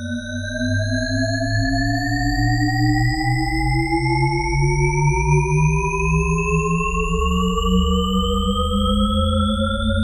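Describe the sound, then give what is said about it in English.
A Shepard tone auditory illusion: stacked pure tones glide upward together in a smooth, continuous sweep, loud and steady throughout, with no voices. “This is the sonic illusion known as the Shepard tone, named after cognitive scientist Roger Shepard.”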